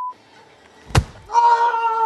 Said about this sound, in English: And that punch was the sound of the Ted Danson character hitting the ghostwriter really hard, maybe breaking his nose.